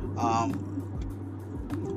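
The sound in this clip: A car is driving with a steady low engine and road rumble under a man talking, the hum holding evenly throughout.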